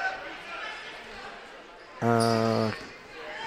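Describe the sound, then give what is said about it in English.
A basketball bounces on the court during a women's basketball game between ABS and Lindsay Lane. Gym noise surrounds it, and a loud, sustained horn-like tone cuts in briefly. “Ball's bouncing around a little bit.”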